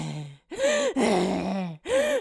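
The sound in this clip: A voice imitates someone gasping and out of breath, with a few strained, drawn-out voiced gasps and groans separated by short pauses, loud and alone without other talk.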